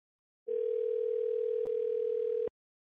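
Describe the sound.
A telephone tone on an outgoing call: a single steady, mid-pitched tone holds for about two seconds, with a brief click partway through, then stops abruptly.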